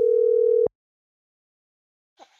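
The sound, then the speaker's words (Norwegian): A telephone call rings out with one steady ringback tone of under a second, then silence, before a voice answers briefly at the very end. “er på tide å ringe opp ukas vinner av tusenlappen.”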